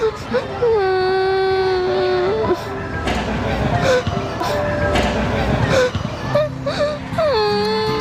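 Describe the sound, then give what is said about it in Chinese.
A child cries and whimpers in long, wavering wails with breathy sobs between them, loud and sustained, with talk mixed in. “别哭了，别哭了啊！”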